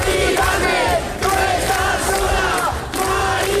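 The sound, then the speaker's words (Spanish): Protest crowd chanting at an overnight eviction sit-in. The chant is loud, rhythmic and shouted, with brief dips between phrases. “Este es el sonido de la protesta que durante toda la noche acompañaba a Mari Carmen.”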